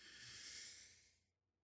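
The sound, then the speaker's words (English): A slow, deep breath drawn in through the nose as part of a relaxation breathing exercise: a soft, airy hiss that swells for about a second and then fades to quiet. “So we're going to breathe in through the nose.”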